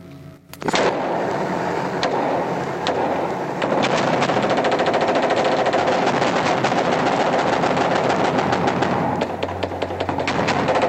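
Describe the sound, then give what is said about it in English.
Automatic machine gun fire shot into a mosque in a combat setting: loud, rapid, continuous bursts of cracking shots that run almost without a break for about ten seconds. “There was no fire that was taken from that mosque. It was shot into because we were angry.”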